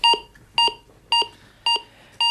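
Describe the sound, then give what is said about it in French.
Electrocardiogram beeps: five identical short electronic tones at a bright mid-high pitch with ringing harmonics, repeating at a steady rhythm about every half second, clear and alone. “Quelques bips émis par un électrocardiogramme”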